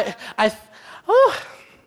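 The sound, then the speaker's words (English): Deep breaths drawn in and let out by a preacher during a church sermon, airy and breathy, with a short voiced sound near the end. “Deep breath.”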